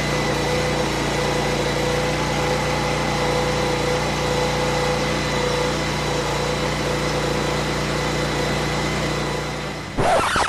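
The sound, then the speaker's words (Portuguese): A power generator's engine runs after a power outage with a steady, droning hum and a constant low throb. It holds an even level for about ten seconds before a brief, louder burst of noise at the very end. “de novo acabou a luz. Pera aí, deixa eu ligar o gerador ali.”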